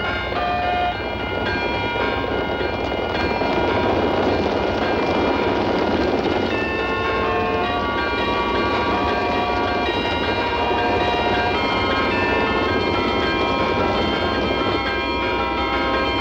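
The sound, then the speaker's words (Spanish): A locomotive pushes a wagon loaded with railway material. It makes a loud, steady rumble with a sustained tonal whine that carries through the whole stretch, and no voices are heard. “Una locomotora empuja un vagón cargado de material para el ferrocarril.”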